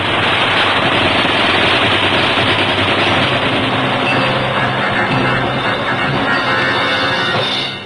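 Enemy machine-gun fire in a wartime radio drama: rapid, continuous bursts that form a loud, dense roar lasting about eight seconds with no pause and no talk.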